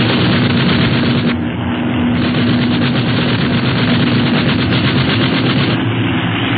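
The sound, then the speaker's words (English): Sustained gunfire aimed at an enemy ship: a dense, loud, continuous rattle of shots with no pauses, holding steady from start to finish. “Okay, start shooting.”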